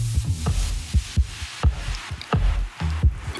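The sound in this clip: Human heartbeat of a professional birdwatcher: a steady run of deep, muffled low thumps at a regular, moderate pace, each beat a soft, dull pulse.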